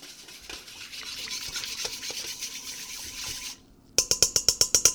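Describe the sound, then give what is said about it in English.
A whisk beats a yeast mixture in a bowl, first with a steady, soft scraping swirl, then after a brief pause a fast series of sharp, evenly spaced strokes that slap and rattle loudly. “And beating it along with a whisk a little bit.”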